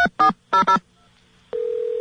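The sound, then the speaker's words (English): Touch-tone beeps as a telephone number is dialed, a New York number beginning with 212: a few short, loud tones in quick succession, then a pause and a steady, continuous tone. “You're supposed to dial 212 first, right, New York?”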